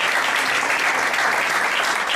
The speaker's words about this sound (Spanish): Un aplauso para una institución de nuestro pueblo, Adelardo Rodríguez.